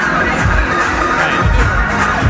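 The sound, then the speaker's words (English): Loud, dense roar of a festival crowd at Coachella, a constant wash of many voices with low booming thumps underneath. “You know, it mostly sounds like this at Coachella.”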